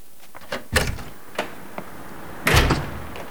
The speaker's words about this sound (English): He opens the door.